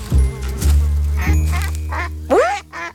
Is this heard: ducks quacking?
yes

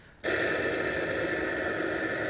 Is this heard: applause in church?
no

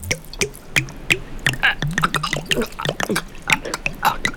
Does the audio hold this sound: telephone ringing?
no

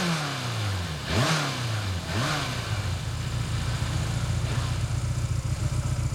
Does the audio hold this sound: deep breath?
no

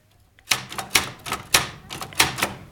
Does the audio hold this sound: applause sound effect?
no

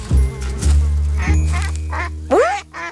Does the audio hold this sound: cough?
no

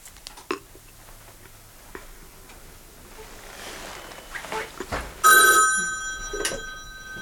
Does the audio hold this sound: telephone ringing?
yes

